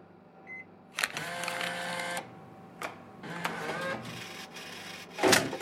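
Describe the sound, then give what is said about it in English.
A vending machine dispenses two items at once: motorized whirring comes in separate runs broken by clicks and clunks, and a louder thud lands near the end. “Don't you love it when the vending machine gives you two for the price of one?”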